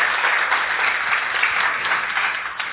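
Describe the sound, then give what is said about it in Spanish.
Church audience applauding the Lord during a sermon, a dense, steady wash of applause that lasts the whole clip, muffled in tone and easing slightly at the very end. “Dale un fuerte aplauso al Señor.”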